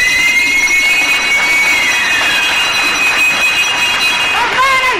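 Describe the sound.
A bell rings at a café prize draw, its bright high partials holding steady through the whole passage while a sliding tone and voices appear toward the end.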